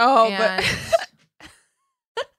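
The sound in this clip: A person with the hiccups makes a drawn-out voiced sound, then two short, sharp hiccups follow, each separated by silence.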